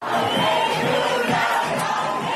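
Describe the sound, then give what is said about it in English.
Thousands of people cheer and shout in Jerusalem's Machane Yehuda market on Israel's 70th independence anniversary, a loud, continuous roar of massed voices from start to finish. “literally thousands of people cheering in the streets of Machane Yehuda. Machane Yehuda is the biggest marketplace in Jerusalem.”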